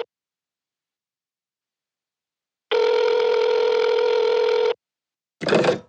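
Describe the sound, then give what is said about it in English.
A telephone rings out on a call: after a long silence, one steady buzzing ring tone lasts about two seconds, then a brief, louder burst of sound follows. “All right, let's ring him up.”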